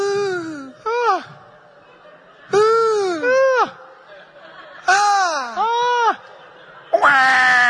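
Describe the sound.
A newborn baby cries in a hospital maternity room, with several loud, high wailing bursts whose pitch arches and falls, separated by short pauses.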